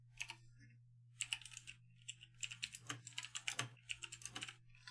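Fingers typing on a computer keyboard: many quick, sharp keystroke clicks arrive in uneven bursts with short pauses between them, over a steady low hum, with no voices.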